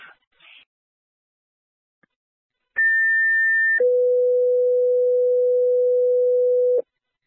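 Fire dispatch alert tones come over a radio: a clean, steady higher tone for about a second, then a longer, lower steady tone for about three seconds. A few faint brief noises come before them.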